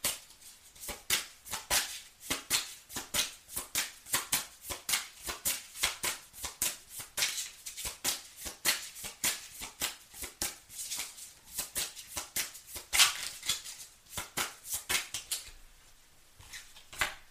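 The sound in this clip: Playing cards being shuffled and dealt: a long run of crisp, rapid clicks and snaps with bursts of riffling, fairly quiet overall and thinning out near the end.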